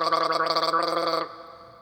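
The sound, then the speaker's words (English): A human throat gargle: a loud, buzzing, bubbling voiced gurgle held steadily for just over a second, then cut off into a faint trailing tail. “This is a throat gargle.”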